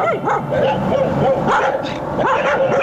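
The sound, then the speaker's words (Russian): Stray dogs howl in the writers' village of Peredelkino, several wavering howls and yips rising and falling in pitch and overlapping, with little pause across the whole stretch. “Воет бездомные собаки в писательском поселке Переделкино. Воют и бегают стаями по улице Гоголя,”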